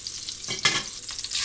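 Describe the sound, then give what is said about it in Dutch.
Salmon frying skin-side down in a pan, seasoned with salt and pepper: a steady hissing sizzle with a brief louder crackling surge partway through, and no voices. “We gaan ook de zalm even bakken. We hebben nog peper en zout. We doen altijd eerst de huidkant. Zodat hij mooi krokant wordt.”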